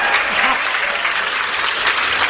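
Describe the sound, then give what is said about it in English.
Audience applause: dense, steady clapping that stays loud and even throughout, with no single voice standing out. “Give her a round of applause for that.”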